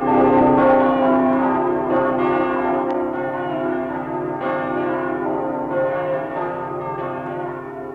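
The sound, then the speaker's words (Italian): Church bells of a basilica in Udine, Friuli ring in full peal, their loud, overlapping metallic tones sustaining continuously without pause. “le uniche campane del Friuli, salvate dalle razzie nemiche, quelle della Basilica della Madonna delle Grazie, cominciarono a suonare. Suonavano a distesa.”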